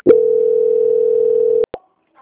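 A telephone line tone sounds during a call transfer: a loud, steady single-pitch tone held for about one and a half seconds, then cut off by a couple of sharp clicks.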